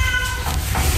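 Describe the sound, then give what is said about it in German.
A black one-year-old tomcat meowing in an animal shelter's cat house, a short meow over loud, rough background noise. “Das hier, was ihr gerade gehört habt, ist Lucifer. Lucifer ist ein schwarzer, einjähriger Kater”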